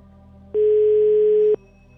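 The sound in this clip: Ringback tone of an unanswered telephone call: one steady, loud, mid-pitched beep lasting about a second, rising abruptly out of a low hum and stopping just as sharply.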